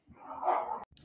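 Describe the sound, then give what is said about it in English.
Two dogs growling and grumbling in the background, a low, rough, sustained rumble that swells and fades over under a second, ending with a sharp click and a faint trailing sound. “My Archie and Moose started growling, if you heard them in the background.”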